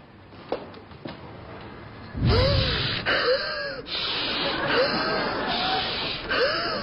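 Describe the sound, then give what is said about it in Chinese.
Heavy panting breath from a person who cannot steady their breathing. After a quieter start come loud gasping bursts with wheezy, voiced sighs, repeating in uneven pulses. “你这样大脑会缺氧的。 我这呼吸难以平复”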